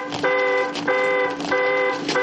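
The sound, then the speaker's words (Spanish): An alarm sounds above a steel bunker door during a wartime scene. Steady harmonic tones repeat in an even on-off cycle, about three full cycles, with a constant hiss underneath. “La alarma está sobre la puerta.”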